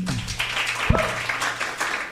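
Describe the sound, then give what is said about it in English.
An audience gives a discussion group a round of applause: moderately quiet, scattered clapping with a single low thump partway through. “Thanks a lot to our group. Can you give them a round of applause?”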